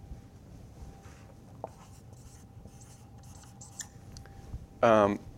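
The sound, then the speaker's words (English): A pen writes by hand, its soft, intermittent scratching strokes faint and steady throughout, with a brief voice near the end. “Let me write that out in case it's helpful.”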